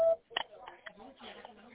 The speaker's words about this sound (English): Please reply after the tone.